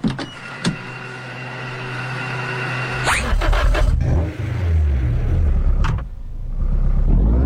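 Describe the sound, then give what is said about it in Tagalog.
A car engine accelerates, its low rumble surging upward in waves after an earlier whirring hum and a few sharp clicks, growing louder and denser toward the close. “Paspas, kusog ug walay problema akong sakyanan.”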